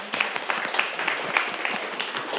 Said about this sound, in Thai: เอาล่ะนักเรียนปรบมือให้กับเพื่อนเลยนะครับ